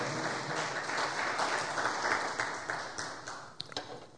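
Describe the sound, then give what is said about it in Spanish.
A church audience applauds in praise of the Lord with steady, dense clapping that holds for most of the stretch, then thins to a few scattered claps at the end. “Denle otro aplauso al Señor.”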